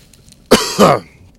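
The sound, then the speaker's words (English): A person who is under the weather coughs, giving two quick, harsh bursts in a row, the second one longer and rougher, with nothing else around them. “I'm kind of under the weather, so it's gonna be a lot of coughing and sneezing and cough drops in my mouth.”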